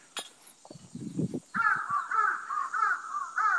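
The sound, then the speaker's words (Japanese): Crow cawing: a run of harsh, nasal caws repeating in a steady rhythm, preceded by a few softer scattered knocks and rustles, with no voices. “カラスくんも泣いとるね。”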